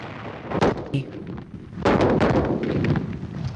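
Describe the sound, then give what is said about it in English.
Booming cannon fire from large siege guns firing a barrage at a fort. Heavy blasts come in quick succession and overlap into a loud, continuous rumble. “A barrage of cannon fire has begun from some large wooden huts some distance from the fort.”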